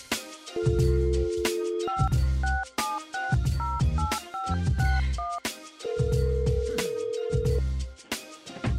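A telephone call is dialed with a quick run of short keypad beeps, then a long ringing tone. It all plays over loud, rhythmic music with a heavy beat.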